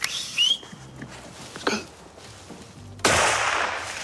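A single gunshot fired at a roe buck during a hunt in a forest: one sharp, loud crack with a long fading tail, after a few seconds of faint bird whistles.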